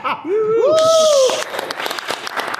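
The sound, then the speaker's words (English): An overflow crowd at a high school athletic directors' convention session cheers and laughs, with a high, wavering, whoop-like voice over a brief burst of noise, then scattered crackling sounds. “Just, the crowd goes wild.”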